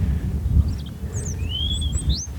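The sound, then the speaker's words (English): A great tit calls: a few thin, high whistled notes, including a longer sweep that rises near the end, heard fairly faintly over a steady low rumble. “I don't know what this bird is. I'm assuming... oh, it's a great tit, of course it is.”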